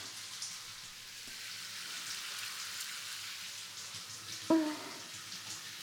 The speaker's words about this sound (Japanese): 大丈夫でしたらこのまま入浴を流していきますね。こうやってシャワーをかけながら、